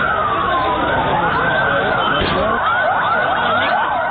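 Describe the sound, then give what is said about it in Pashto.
Ambulance sirens wail after a powerful bomb blast in a crowded park's car park in Lahore, carrying the dead and wounded. Several overlapping tones waver up and down, loud and continuous. “دا د هغو امبولانسونو غږ دی چې په لاهور کې له قوي چاودنې وروسته یې د پیښې له ځایه مړي او ټپیان انتقالول.”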